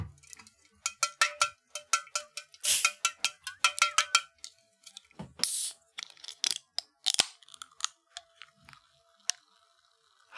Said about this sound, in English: Anyways, let's crack these bitches open.